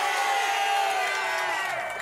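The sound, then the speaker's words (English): A crowd at an outdoor rally in a rainstorm cheers, with voices whooping and shouting in a sustained, fairly loud roar that stays even and fades slightly toward the end. “Let's give her a cheer for her spirit.”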